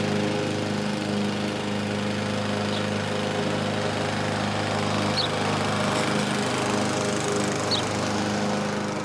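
A lawn mower runs while mowing grass, giving a loud, constant buzzing engine drone with no breaks for the whole stretch.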